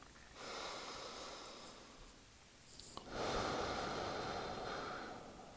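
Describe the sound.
Slow breathing in during a guided meditation: soft, airy breath noise that swells and carries on for several seconds in two long stretches, quiet and with no talk.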